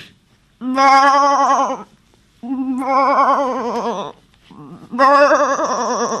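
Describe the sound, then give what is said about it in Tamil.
Three long bleats from a male goat, each lasting more than a second with a strongly wavering, quavering nasal tone and separated by short silent pauses. “டே, இது பேர் கெடா.”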